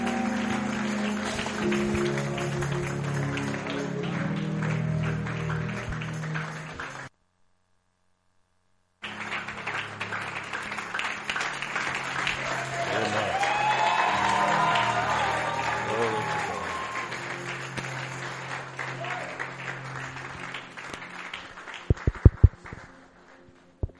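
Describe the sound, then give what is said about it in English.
An audience claps to welcome a speaker during a church service, sustained and steady with voices mixed in, broken by a short silence partway through before the clapping resumes. “With Jesus' joy in our hearts and with a clap, I want us to welcome my Father in the Lord.”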